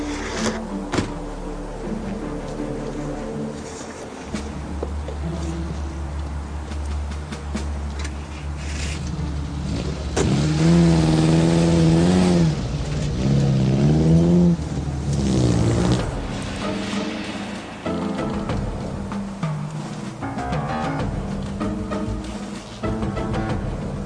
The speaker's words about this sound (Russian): Автомобиль ГАЗ-24 белого цвета.